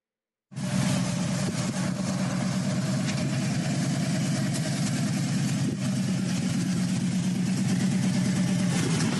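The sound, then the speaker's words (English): A motorcycle engine drones steadily in the background, a low, even idling rumble that runs unbroken through the whole stretch, with no talk over it. “By the way, that's a motorcycle you hear in the background”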